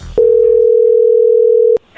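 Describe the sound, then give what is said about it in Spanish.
A telephone ringing tone plays while a call to a person is being placed: one loud, steady, mid-pitched tone holds for about a second and a half, then cuts off sharply. “vamos a llamarle a María Max. Vamos a ver si ella te manda los chocolates a ti”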